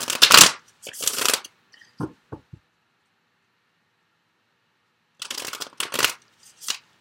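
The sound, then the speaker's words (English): Sensual Wicca Tarot cards being shuffled, with loud riffling bursts at the start, a few short soft taps, a stretch of silence, then more papery bursts of shuffling near the end. “But let's go ahead and get some additional cards. So from the Sensual Wicca Tarot.”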